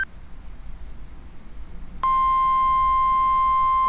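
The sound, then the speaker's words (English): A weather radio danger warning alert tone before a tornado warning: low static hiss, then a loud, steady, continuous high tone that starts midway and holds unbroken to the end. “Now that's the super danger warning tone. That's the danger alert.”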